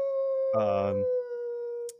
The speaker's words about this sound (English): That's somebody's howling though. Like this invisible person's howling.